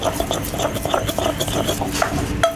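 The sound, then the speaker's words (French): A pestle works grilled ingredients with confit garlic and oil in a mortar, making light, irregular knocks and faint ringing clinks over a steady scraping background. “Et là, bah, tout simplement, on va les mettre dans un mortier. Ouais, on va mettre une gousse d'ail confite. On rajoute un petit peu d'huile.”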